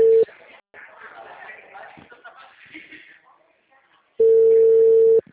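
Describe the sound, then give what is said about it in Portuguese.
The ringing tone of an outgoing phone call, a steady mid-pitched tone cut off at the start and then one full ring of about a second near the end, with people talking in the gap between. “tá chamando aqui, vou ver se ele vai atender. Não tá dando caixa postal e nem nada.”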